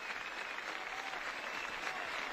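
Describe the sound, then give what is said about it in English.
Faint applause rises from the faithful at a liturgy in the Canary Islands as they stand after a bishop's final words, a soft, even patter of many hands clapping without a break. “and applauding those words, those final words from the bishop there.”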